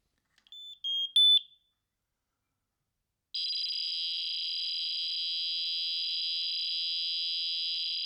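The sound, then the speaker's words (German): A smoke detector sends its test status to a phone app with a fax-like tone after its test button is held: a few short high beeps, a pause, then a long steady high-pitched data tone that runs to the end. “die haben sowas ähnliches wie ein Fax eingebaut in diese Rauchmelder. Und zwar drückt man in der App auf Testen und hält dann die Rauchmelder-Taste für ungefähr 3 Sekunden gedrückt und dann kommt dieses Geräusch.”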